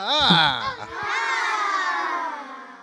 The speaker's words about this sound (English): The audience was full of children that night.